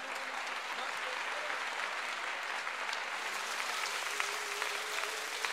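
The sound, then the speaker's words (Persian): Hand clapping by a group keeping time along with a sung verse: continuous, dense claps throughout, with a voice carrying over them. “ما دست بزن ببینم”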